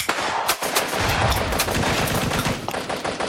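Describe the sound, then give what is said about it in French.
Automatic weapons gunfire in combat, with grenades and artillery also in use: dense, rapid cracks and bursts run continuously and loud, with a few sharper bangs early on. “Les bruits de grenades, d'artillerie, d'armes automatiques se rapprochent.”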